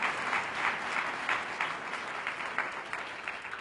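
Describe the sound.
Audience applause welcoming a speaker at a church gathering, dense steady clapping that holds at a moderate level throughout with no single voice standing out.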